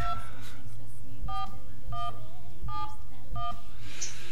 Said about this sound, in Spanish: Bueno, vamos marcando que no nos salga el contestador, que no salga el número por la protección de datos, que bueno.